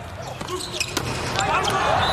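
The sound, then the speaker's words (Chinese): A volleyball float serve being struck during a match, heard as a short, sharp slap with a few lighter knocks around it, under a commentator's voice. “科扎梅尔尼克的发球，飘球。”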